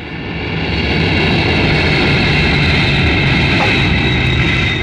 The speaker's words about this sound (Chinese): 波音客机降落在机场